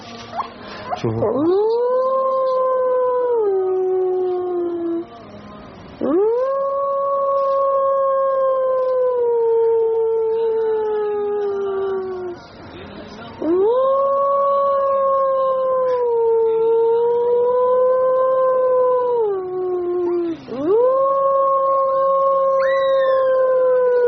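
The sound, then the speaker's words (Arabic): A young wolf howls while a person teaches it to howl. Four long, loud howls slide up at the start, hold a wavering pitch and then drop away, with brief pauses between them. “سبحان الله العظيم، انسان بيعلم الذئب كيف يعوي، بيعلمه ازاي.”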